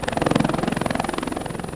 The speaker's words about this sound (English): Air Force helicopters deliver food.